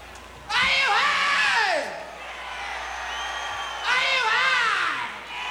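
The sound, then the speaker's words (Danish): A man shouts "yeah" amid a cheering crowd, two loud whooping cries with sweeping, falling pitch, separated by a lull of steady crowd noise. “Kan du høre ham, der råber, yeah!”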